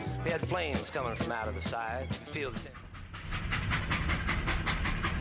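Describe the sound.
Steam train sound effect: a voice talks for the first few seconds, then a rapid, even chuffing of hissing bursts runs alone to the end in a steady rhythm.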